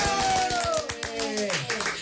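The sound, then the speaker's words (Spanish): Applause welcoming a guest: a short burst of rhythmic hand clapping that fades after about a second, mixed with voices and a gliding tonal sound. “¡Aplausos!”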